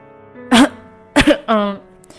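A man coughs and clears his throat while riding in a car: a few short, gruff, voiced bursts separated by brief pauses, with no talk.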